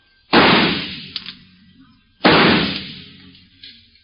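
Two loud gunshots fired at coins thrown out of a window. Each is a sharp crack with a long decaying tail, and the shots are about two seconds apart.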